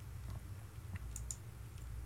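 Typing on a computer keyboard gives a few soft, sparse key clicks over a quiet, hushed background.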